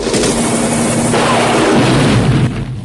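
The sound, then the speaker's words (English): A missile explosion destroys a gun turret in a Rambo action film: a loud, sustained roar of rumbling blast noise that eases slightly near the end. “Rambo takes out a gun turret with a missile.”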